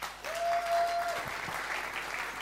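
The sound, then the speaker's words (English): Audience applause after a call to clap for two people, a steady unbroken patter that holds at an even level for the full few seconds. “Give them both a clap.”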